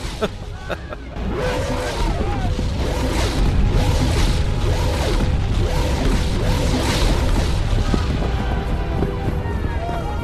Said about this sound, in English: A nice sound effect. You'd have thought orbital bombardment would be bigger.